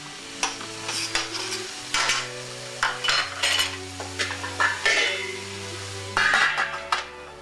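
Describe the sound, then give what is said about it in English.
A spoon stirs onions sautéing in a pan, the cover lifted off between stirs: many quick scraping clinks and knocks of utensil on cookware over a soft sizzle, with no voices. “I'm sauteing the onions so they'll become soft and brown. And in order to speed it up a little, I like to put the cover on, for about 10 minutes. take it off every so couple of minutes and give it a stir.”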